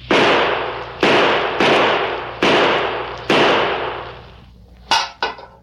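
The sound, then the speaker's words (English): Gunshots fired at a tin can on the ground: five loud, sharp reports, each trailing off in a long decay, then two shorter, quieter cracks close together at the end, with no talking. “Golly. Say, that's the best shooting I ever saw.”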